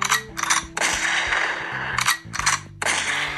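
A shotgun blast sound effect fires in a few sharp, loud bursts, spaced unevenly over a low tonal hum, with no talk.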